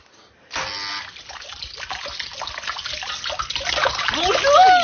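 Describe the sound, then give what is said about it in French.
Steady rushing spray of water from a fish-shaped garden fountain shooting a jet, starting abruptly after a brief quiet moment and continuing as a dense hiss that grows slightly louder toward the end. “Madame Harpel est si fière avec sa fontaine poisson qui lance son jet d'eau”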